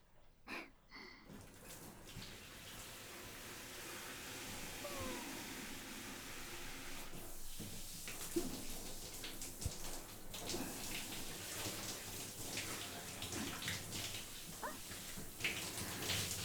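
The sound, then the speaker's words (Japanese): Water running steadily to rinse off after washing, a continuous soft hiss with scattered splashes and drips throughout. “ささっと洗っちゃって。よし、流しちゃおっか。”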